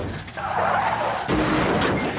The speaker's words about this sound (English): What was that? Oh! He hit the pole. He's still driving. Dwight, you forgot your bumper.